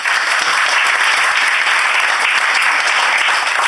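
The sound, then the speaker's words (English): Audience applause fills the stretch, a dense, steady clatter of many hands clapping at an even, fairly loud level with no break, and no one speaking over it. “So round of applause for”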